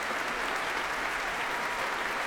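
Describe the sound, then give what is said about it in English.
Dense, steady applause from a concert audience and a band of young wind and brass players clapping for the composer. It runs evenly for the whole stretch, with no talk over it. “And as he applauds the young players and gives them a thumbs up, they're all applauding him in return,”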